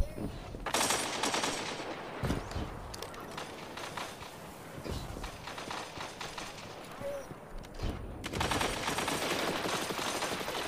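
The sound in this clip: Sniper rifle gunfire in a video game match: a few sharp, loud shots ring out over a constant wash of game noise and muffled voices.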